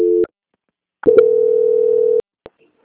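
Call transfer tone on a bank quality-control phone line, starting with a short double-pitched beep. After a pause comes a sustained even tone of about a second that stops sharply, followed by a couple of faint clicks.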